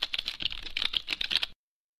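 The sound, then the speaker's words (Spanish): Rapid clicking of a stylus writing braille on a paperless Versa Mini slate: many light, crisp taps in quick succession for about a second and a half, then silence. “Escribiendo braille con una regleta y estilete que no utiliza papel.”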